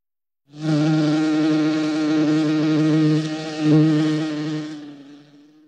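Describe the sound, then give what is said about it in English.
A low, harmonically rich buzzing holds steady for about four seconds, then swells briefly near the end before cutting off. No voices are heard. “Buzz.”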